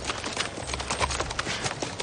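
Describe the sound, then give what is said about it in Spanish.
Hooves of several horses clop steadily as armed riders guarding a prisoner advance along a hillside in a Western, a soft, continuous, uneven patter of hoofbeats with no voices. “Más adelante, los jinetes que custodian a Wade avanzan por una ladera.”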